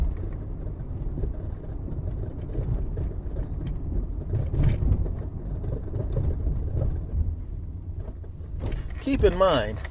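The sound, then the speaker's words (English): Low, steady road rumble from a car driving along a small, bumpy street, with a few duller thumps from the bumps rising out of the continuous noise. “Keep in mind, I avoided some of those bumps. I know you could hear them, as sensitive as this microphone is.”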